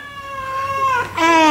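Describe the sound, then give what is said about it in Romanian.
A cat meows twice, both drawn-out and tonal; the second is louder than the first. “Uite și o pisică, ce drăguță e.”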